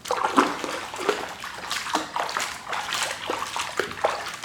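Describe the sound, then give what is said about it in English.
Water is poured over hair to rinse it, making a steady stream of splashing and trickling with small, uneven surges. No one speaks. “Ready to rinse again? Lean back.”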